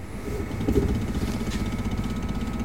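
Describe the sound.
A homemade coil motor with a trigger circuit, spun by hand to start, runs with a steady low whirring hum and a faint thin whine, even in level throughout.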